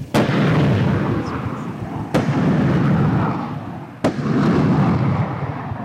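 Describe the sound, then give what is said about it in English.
Three truck-mounted launcher rockets fire from beside a field of dead sunflowers. Each launch is a sharp, loud blast that rolls into a long, sustained roar. The blasts come at roughly two-second intervals, with no voices. “songbirds fly away as the rockets jet south in a plume of smoke.”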